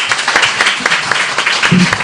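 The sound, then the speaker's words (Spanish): Applause from the studio on a Spanish morning radio show as guests are thanked: dense, steady clapping that fills the whole stretch at even loudness, with no single claps standing out. “Os merecéis un gran aplauso, ¿eh?”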